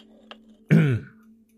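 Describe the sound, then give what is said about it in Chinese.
A man gives a single short, harsh cough to clear his throat, one loud burst lasting about a quarter second after a faint tick, set against a low steady hum and otherwise quiet. “谢炳峰看了眼萧氏，咳了一声道：”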